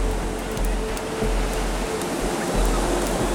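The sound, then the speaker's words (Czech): Wind-driven waves on water in a rainforest setting, heard as a steady, dense roaring wash that continues without clear breaks, with a constant low rumble underneath. “Na vodě začne tvořit větší vlny. Stromy a jejich listy více rozhoupá.”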